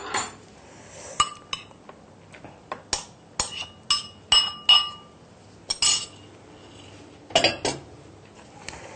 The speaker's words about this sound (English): Make sure it's quite well combined. And then next we add 1 medium grated carrot.